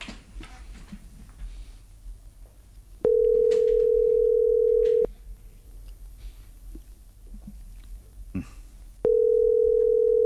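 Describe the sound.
Telephone ringback tone heard while a radio contest host waits for a listener to answer: two long, loud, steady mid-pitched tones of about two seconds each, separated by a quiet gap, the second cut off at the end.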